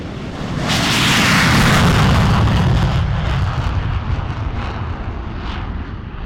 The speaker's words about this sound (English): This week, F-22, F-16, F-15, and A-10 jets are lining up for takeoff.